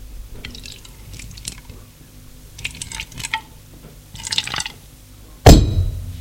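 Beer is poured from a bottle into a glass, with soft liquid splashing and light glassy clinks, then a sharper, louder knock of glass near the end.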